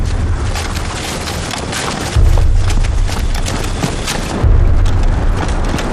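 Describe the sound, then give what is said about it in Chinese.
A landmine explodes behind a group that has just left a minefield. Two sudden, deep booming rumbles swell in one after the other and linger over a wind-like roar. “刚才后面是不是地雷炸了？”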